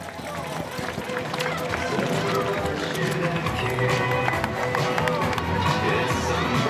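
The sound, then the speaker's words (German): Runners and spectators fill the start and finish area of an evening race in Kerzers: elite men warming up while others return from the course. Steady crowd murmur and chatter mix with the patter of footsteps throughout. “Und jetzt hier also die Elite der Männer unterwegs auf dem im Start- und Zielgelände vom Kerzenlauf, zumindest in Kerzers, ist etwas los. Läufer machen sich warm, andere kommen schon zurück vom Rennen”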